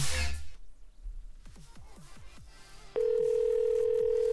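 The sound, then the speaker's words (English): A telephone tone on an outgoing call: a few short, falling chirps, then a steady, even tone that begins partway through and holds unbroken to the end. “Kelly, I'm sorry I missed your call. Kelly, you stupid ass, pick up the phone right now. How dare you not answer?”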